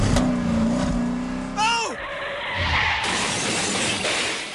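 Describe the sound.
A car drives off. A steady engine roar runs throughout, and near the middle a sharp, high squeal cuts in and drops quickly in pitch before the engine noise carries on.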